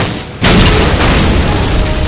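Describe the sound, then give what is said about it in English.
Grenade blast blowing apart a wooden barn: a sudden loud, broad roar bursts in after a quieter start and stays heavy and steady to the end, with no voices. “The blast ripped the wooden structure apart, wood and shards of metal flying in all directions.”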